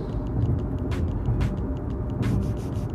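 Steady road noise from a car travelling at about 60 near a truck: a constant low rumble and tyre roar, with a few faint, brief ticks on top.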